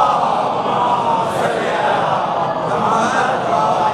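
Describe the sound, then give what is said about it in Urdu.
A large crowd chanting the Naara-e-Haidari slogan, heard as a dense, sustained roar of many voices that stays loud and steady throughout. “بلند آواز سے نعرہ حیدری دل پٹے کو منوارے ہوں گے.”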